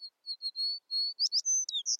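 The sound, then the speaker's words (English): American tree sparrow call: a quick series of thin, high whistled notes. It opens with short level tones and shifts to brighter, slurred chirps toward the end, clear and alone. “Though American tree sparrows are common in North America, their populations have steeply declined since the 1970s.”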